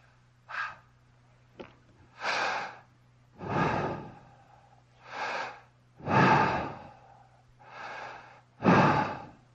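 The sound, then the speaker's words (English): A person draws deep, audible breaths, about seven rasping breaths in a slow, uneven sequence with short silences between them, a faint low hum beneath and one small click early on. “He instructed them to breathe in like this.”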